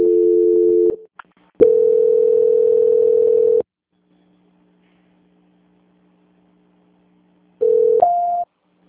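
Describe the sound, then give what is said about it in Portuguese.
Telephone line tones sound while a caller waits during a call transfer. A short steady tone cuts off, then a longer steady tone runs about two seconds. After several seconds of near silence with faint hum, a brief tone steps up in pitch. “peço que a senhora aguarde em linha que eu vou transferir para o controle de qualidade. Ok. Só um minuto. Transferência.”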